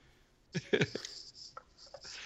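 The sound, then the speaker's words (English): Sharpie marker squeaking and scratching as someone draws, a cluster of short, sharp strokes followed by a pause and then a few longer, smoother strokes. “Can I just draw with a Sharpie?”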